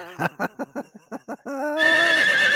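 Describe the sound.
Horse neighing sound effect: a quick series of short, choppy pulses runs straight into a sustained, bright whinny that holds steadily before trailing off.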